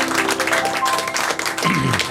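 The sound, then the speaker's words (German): Short burst of audience applause at a television after-work event, brisk clapping mixed with voices, lasting about two seconds. “Applaus jetzt.”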